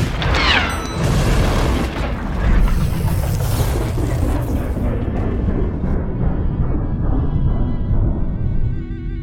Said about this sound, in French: Séquence de lancement engagée. Mise à feu dans 3, 2, 1.